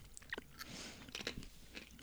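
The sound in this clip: Faint, crisp crunching and chewing of dried apple, with many small irregular bites and crunches close together.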